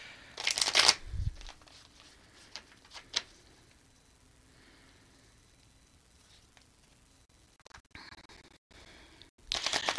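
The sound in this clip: Tarot cards being shuffled, with brisk papery riffling bursts at the start and again at the end, and a few light ticks and taps in the quieter stretch between. No voices.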